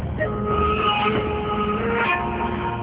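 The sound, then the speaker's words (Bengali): A passenger train in Bangladesh, running from Dhaka's Kamalapur toward Sreemangal, gives a steady rattling rumble throughout. A few thin tonal whines rise over it, and no voices are heard. “উঠে বসে আমাদের seat খুঁজে পেতে সময় লাগবে না, চলো ট্রেনেই উঠি। ওকে, চলো তাহলে ট্রেনেই উঠে পড়ি অজগরের পেটে।”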